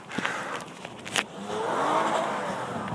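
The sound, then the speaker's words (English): Four-wheel-drive car being driven in snow at night, a faint engine note that swells into a smoother, steadier revving drone after a few scattered knocks and scrapes. “Some people are testing out their four-wheel drive in the snow.”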